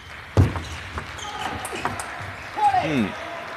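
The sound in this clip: A table tennis ball clicks as a player serves in a competitive match: one sharp, loud tap followed by a few fainter taps, with a voice speaking briefly near the end.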